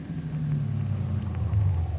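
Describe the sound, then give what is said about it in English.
A taxi cab's engine rumbles as it pulls up at a street corner. The drone is low and steady and runs for about two seconds, with no voices. “No, we leave cab at this street. Driver, you stop on corner.”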